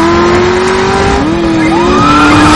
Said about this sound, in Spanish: El coche está con la cinta a toda velocidad.